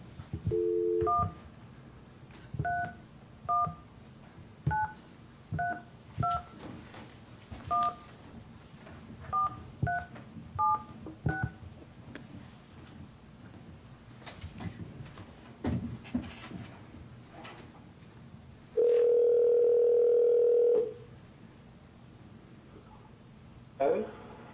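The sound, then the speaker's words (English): Touch-tone keypad beeps as a telephone number is dialed, a quick series of short, evenly pitched tones, followed after a pause by one long, steady ring on the line. “I've got the number on the sheet here. I can call.”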